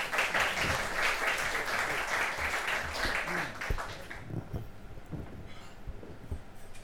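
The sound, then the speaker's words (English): Audience applause welcoming two speakers at a talk, a dense, loud clapping for about four seconds that then fades into softer scattered claps and low thumps. “So please put your hands together to welcome our two speakers today.”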